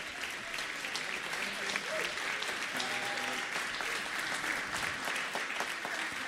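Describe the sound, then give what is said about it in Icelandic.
Audience applause from a crowd at an event, steady dense clapping sustained for the whole span at even loudness, with faint voices mixed underneath. “Gefum þeim gott klapp.”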